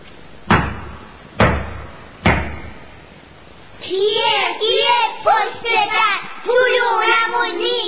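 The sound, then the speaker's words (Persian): Fists pound on a door in three heavy, evenly spaced thuds, each followed by a short ring-out. Afterwards a voice speaks. “حوصله‌اش اومد به سر، مشتاشو کوبید به در.”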